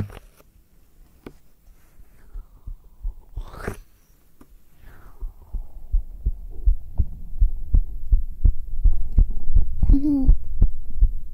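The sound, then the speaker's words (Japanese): A human heartbeat is picked up against bare skin by a binaural dummy-head microphone. Many soft, low thumps come in a steady rhythm and grow noticeably louder in the second half, with a brief soft voice near the end. “ねえ、ちょっとだけ聞きたいんだけどさ、今の聞こえてる心音と、ちょっともう一回いくね。”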